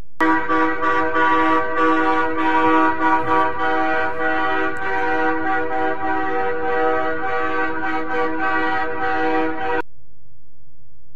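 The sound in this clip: Truck horns blaring together in a trucker convoy in Ottawa: a loud, sustained chord of overlapping air horns holds steady for about ten seconds, then cuts off abruptly, leaving a faint low hum.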